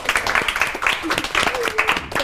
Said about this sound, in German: Das ist ein Applaus wert, oder?